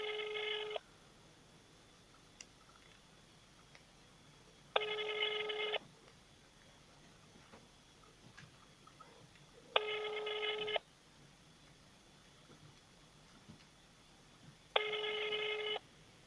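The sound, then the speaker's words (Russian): Unanswered telephone ringback tone sounds in four evenly spaced bursts, each about a second long and roughly five seconds apart, fairly faint over a quiet line. “Трубочка не берется.”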